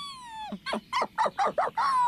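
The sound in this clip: A dog whimpers, opening with one drawn-out whine that falls in pitch, then six short, pleading whimpers in a quick, steady rhythm, fairly soft and with no talking.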